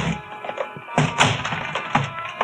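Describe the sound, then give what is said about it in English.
Heavy wooden thunks from a fire axe striking a ship's cabin, with several dull blows landing at irregular intervals over a soft background. “I grabbed a fire axe out of its case on my way to Ralph Gordon's cabin. If it needed ventilating, I knew one quick way to do it.”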